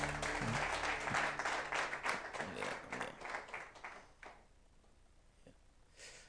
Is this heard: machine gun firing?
no